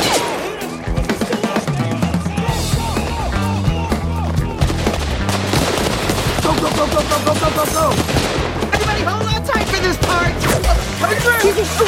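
Gunfire breaks out as intruders close in during a dash through a building, a dense and continuous clatter of many rapid shots that stays loud across the whole stretch, with no clear pause between bursts.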